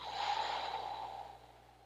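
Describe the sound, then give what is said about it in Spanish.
A slow, deep exhaled breath during a guided breathing exercise: a soft, airy rush that fades gradually over about two seconds, with no talk. “Inhala profundo. Exhala.”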